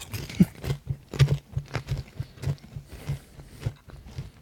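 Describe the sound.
Crunchy chewing of sweet peppers, many regular, fairly even bites in a steady rhythm, moderately loud and with no talk.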